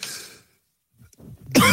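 A man coughs and clears his throat: a rough, breathy burst opens, then a short pause with faint throat sounds, followed by a louder, harsh cough at the end.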